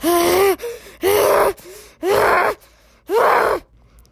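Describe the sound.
Hard, heavy gasping during an angry, out-of-control meltdown: four loud, rasping, voiced gasps in a steady rhythm about a second apart, with softer breaths between them.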